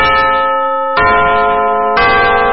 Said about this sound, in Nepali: साहिनो समय सूचक अहिले बिहानको 6 बज्यो।